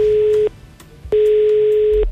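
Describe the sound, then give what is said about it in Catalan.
Telephone ringing tone heard when calling La Brutal in Girona: two loud, steady, mid-pitched buzzing tone bursts separated by a short silent gap, with the second burst lasting longer than the first. “Llavors he volgut tornar a trucar per veure si és que era jo que m'havia equivocat o realment ja no tenien línia telefònica a la Brutal i sí que en tenen.”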